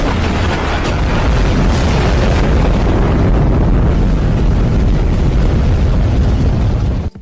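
A bomb explosion sound effect: a loud, sustained, rumbling roar with broad noisy texture that holds steady for about seven seconds, then cuts off abruptly at the end, with no voices.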